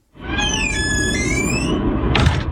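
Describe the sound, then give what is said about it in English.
A child squeals high-pitched with delight, one long wavering squeal over steady background noise, followed near the end by a brief noisy burst. “There's some high-pitched squealing at one point because he was just enjoying this also very much.”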